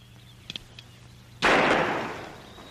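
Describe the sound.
A single sharp gunshot fired at a playing card in a western shooting contest cracks loudly and decays over about a second, after a few faint clicks.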